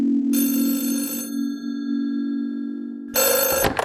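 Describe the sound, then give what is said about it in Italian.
A telephone bell rings in two bright bursts separated by a pause of about two seconds, over a steady low tone that continues throughout. “Chiamata dallo Sri Lanka da parte del signor Arthur Clark.”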